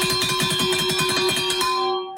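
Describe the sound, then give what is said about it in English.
Cowbells rung by Mississippi State supporters for a Saturday evening football game in Starkville make a dense, continuous metallic clanging. Many bells sound at once in a rapid, overlapping rhythm, holding steady before fading at the very end. “Here are the cowbells that Mississippi State will be ringing on Saturday evening there in Starkville.”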